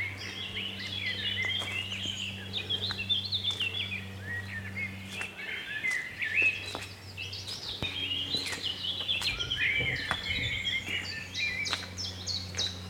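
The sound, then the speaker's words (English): Blackbirds sing in a beech wood in the Brecon Beacons just after 8 am, a continuous mesh of overlapping whistled phrases and chirps over a steady low hum. “Birdsong just raining down. It's mainly blackbirds.”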